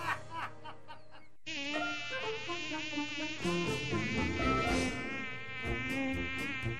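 Mosquitoes buzzing in a thin, wavering whine that holds loud and steady through nearly the whole stretch, after a brief break near the start.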